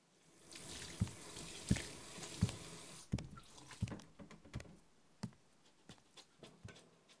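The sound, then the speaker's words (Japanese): Dishes being washed at a home kitchen sink: many small clinks and splashes of water, with scattered drips, in an irregular rhythm over a quiet, steady background. “じゃあ私は残り洗っておくね。”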